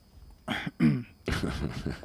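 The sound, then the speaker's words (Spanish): A person clears their throat: a few short, rough guttural bursts, then a longer rasping one, fairly faint and alone without talk. “¿Esa carraspera ha sido por algo?”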